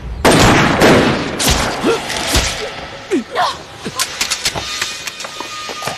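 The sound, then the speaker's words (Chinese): Gunfire in a loud, rapid volley of many shots, followed by scattered sharper bangs, with a car engine rumbling underneath. “开枪。”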